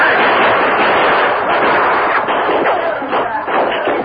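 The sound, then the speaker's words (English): Gunfire in a dark tunnel: many shots blur into a loud, dense, continuous crackling barrage, with a few sharper cracks standing out toward the end. “Come on, boys, open fire and put out that lantern.”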